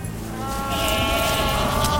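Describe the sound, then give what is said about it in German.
Goats being herded in from a pasture bleat loudly in sustained, overlapping wavering calls that run without a break from start to finish. “Nachher holen wir die Geissen ab der Weide. Geht's, geht's! Komm, Geissen, komm!”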